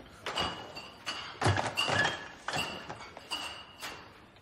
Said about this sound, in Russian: Сали заносит ящик в бар, ставит его на стойку и идет обратно в подсобку.